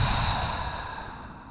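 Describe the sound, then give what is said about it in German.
A deep breath at the close of a guided meditation, drawn in through the nose and released through the mouth: a soft, airy, steady rush of breath that fades slightly over its length, with no voices. “Nimm noch einen tiefen Atemzug ein über die Nase, aus über den Mund.”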